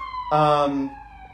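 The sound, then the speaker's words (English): An emergency vehicle siren outside sounds as one loud, bright harmonic wail of about half a second. Its tone shifts partway through, then it fades back to a faint steady background hum. “oh, there's the sirens that I told you have been happening.”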